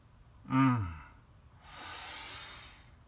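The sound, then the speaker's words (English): A deep breath taken alone: a short, voiced, gasp-like intake followed by a long, soft, hissing exhale. “How good does that feel just to take a nice deep breath?”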